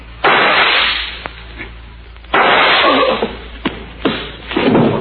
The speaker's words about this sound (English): The whole building must have heard them shots.